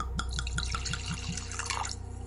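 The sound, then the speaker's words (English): Fine Irish whiskey is poured from a bottle into a glass, giving a quick, regular series of liquid glugs and drips that then trail off into a softer trickle. “pour himself another glass of fine Irish whiskey”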